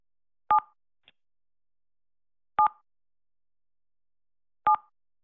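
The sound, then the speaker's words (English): Telephone keypad tones dial the digit 7: three short, identical two-note beeps spaced evenly about two seconds apart. A faint tick follows the first beep, and the line is otherwise silent. “To continue, dial 7 now.”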